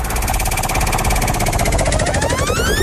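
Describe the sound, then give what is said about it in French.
A game show prize wheel spins with rapid, even ticking, loud and continuous, while a bright tone sweeps upward in pitch toward the end. “Allez, on tourne la roue.”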